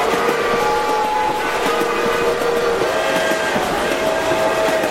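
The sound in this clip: Locomotive noise: a loud, steady rail rumble with sustained whistle-like tones held above it, continuous throughout with no voices.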